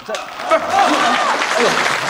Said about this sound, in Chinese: 这，不是，您还给我鼓掌，这是什么？